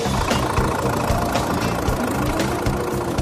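Old vehicle engine idling after being started by ignition, a steady, rough low rumble with a faint knocking texture, running on its own without talk.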